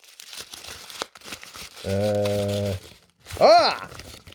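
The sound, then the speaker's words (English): Crinkly paper rustling as someone looks through a Halloween half-term history jobs folder. Brief crackling bursts come first, then a voice hums a steady note and makes a short sliding vocal sound. “Let me have a look through the Halloween half-term history jobs folder.”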